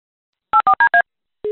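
Telephone keypad dialing: four short, evenly spaced two-tone beeps, then a brief pause and a single longer, lower tone.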